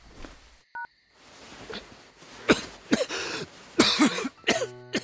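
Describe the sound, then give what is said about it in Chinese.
A person coughs several times, harsh throaty bursts close together in the second half, after a brief electronic telephone beep and some quiet rustling; a short stepped run of phone tones follows at the end. “边南觉得自己嗓子有点发紧，挂掉电话之后，他狠狠地咳嗽了几声。”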